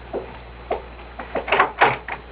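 A door being opened: a run of rattling clicks and dry scrapes that grows to louder, busier bursts toward the end, with no voices.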